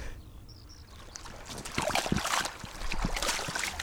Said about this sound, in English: I catch Joan and Bernard Chisholm washing their rubber boots in a stream after a few hours peat cutting.